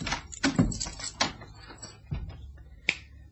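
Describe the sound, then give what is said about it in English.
A locked door being opened: a few faint, sharp clicks and knocks spread out irregularly, ending with one brighter, higher click near the end. “It's locked, as you see. Let's go in and I'll switch on the lights.”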